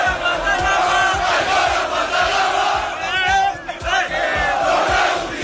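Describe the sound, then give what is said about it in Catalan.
Barça fans celebrate the league title in the early hours at Plaça Catalunya, a loud crowd chanting over regular low thumps, with shrill whistles cutting through briefly past the midpoint. “Això que sentiu és part de les celebracions del títol de Lliga, era ja de matinada, en calent, amb el que sentiu Marc Caçador, que va tornar-se a fusionar amb l'afició, com l'any passat a Canaletes, aquest cop a Plaça Catalunya,”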